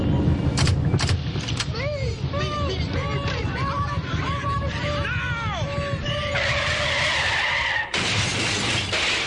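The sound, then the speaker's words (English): An old car is driven through a barrier: tires screech in wavering, sliding squeals over a loud, continuous engine roar, with shattering noise as the barrier breaks and voices audible underneath. “When I give the signal, toss them out, and I'll drive this heap right through the barrier.”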